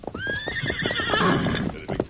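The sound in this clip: A horse named Silver whinnies, a long, loud neigh that rises and then wavers, over a steady patter of clip-clopping hoofbeats.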